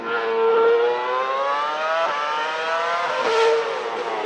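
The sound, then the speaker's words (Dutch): Ferrari V8 racing engine from the 2006–2013 era: a loud, high, buzzing whine that climbs in pitch, drops sharply at gear changes and climbs again, with no talk. “Nou ja, ik heb dus 3 video's van Ferrari, want daar zijn de meeste video's van. Dus we hebben hier ten eerste de V8.”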